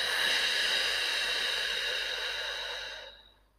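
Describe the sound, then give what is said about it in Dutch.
A deep exhaled breath during a guided breathing exercise: one long, airy hiss that holds steady and then fades away over about three seconds, with no talking. “Adem in. Hou even vast. En adem uit.”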